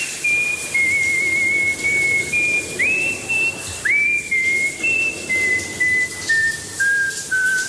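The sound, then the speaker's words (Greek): A person whistles a tune in the shower: loud, clear high notes held in short phrases, with a couple of quick upward slides between them, and no other voices. “Όταν κάνω ντους, σφυρίζω και κάνω πολύ φασαρία, δυστυχώς.”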